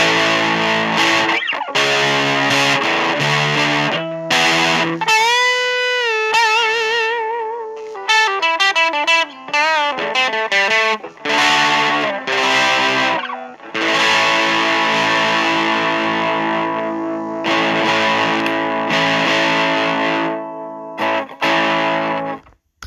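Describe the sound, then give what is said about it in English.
Heavily fuzzed electric guitar through a fuzz pedal in modern mode with the volume boosted, giving thick, saturated sustained chords and notes. Loud and continuous, with wavering, bent notes in the middle section and no voices. “Okay, so you can hear the boost it gives it, and honestly, the modern mode almost gets into like a Big Muff territory, with how much fuzz it gets.”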